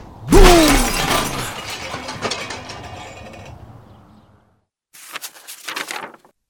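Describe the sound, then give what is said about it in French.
A huge metal machine built as a dragon explodes in a loud blast with a falling whine and a long, crashing, decaying roar. After a short silence, metal parts clatter and rattle. “Puis il se met à vibrer, à grincer, à crisser. De la fumée sort de ses naseaux et de ses oreilles. Et soudain, il explose.”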